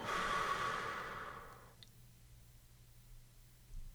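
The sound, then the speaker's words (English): A soft, quick exhale during a guided morning stretch breathing exercise, heard as a breathy rush that fades away after about a second and a half and leaves near-silence. “Inhale once more for 6 counts. And exhale quickly for 3.”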